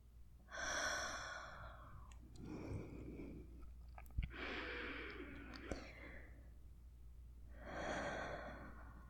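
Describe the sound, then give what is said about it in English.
Heavy breathing of a person struggling to catch their breath, a few soft, drawn-out breaths in slow succession with short pauses between them, faint and close. “Not doing a very good job at regaining my breath right now.”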